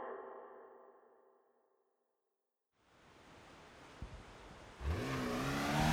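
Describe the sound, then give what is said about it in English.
A Porsche sports car accelerates on the Pacific Coast Highway: a broad rushing roar rises out of brief silence and grows louder, and near the end the engine note climbs sharply in pitch. “The Porsche tore up the Pacific Coast Highway.”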